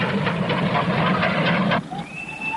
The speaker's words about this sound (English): Hey, there's a train coming.